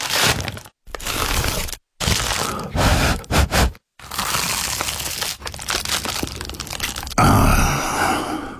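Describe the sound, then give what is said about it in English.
Someone bites into and eats an award-winning pie, with loud, close crunching and crackling chewing in repeated bursts, broken by a few short silent gaps. “That was the sound of an award-winning dad's pie.”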